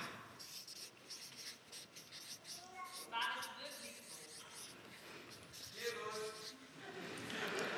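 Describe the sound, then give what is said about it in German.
Handwriting with a pen on paper as a word and a question mark are written out: steady scratchy strokes and taps in irregular bursts, with brief voices heard now and then. “Aha, ich schreibe einfach mal heute auf. Fragezeichen.”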